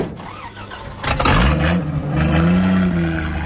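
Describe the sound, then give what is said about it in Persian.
A car's engine starts after the driver angrily shuts a rear door, then revs as the car pulls away. Noisy rumbling gives way to a roaring engine drone that climbs and holds, loud throughout. “راننده در عقب و عصبی میبنده و میره سوار میشه.”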